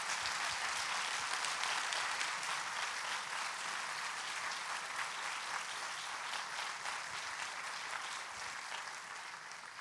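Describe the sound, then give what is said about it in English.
Audience applause welcoming a guest speaker, steady and even clapping that holds at a moderate level for the whole stretch. “So would you put your hands together and welcome Dr. Dalton Smith as she comes to share this word with us today.”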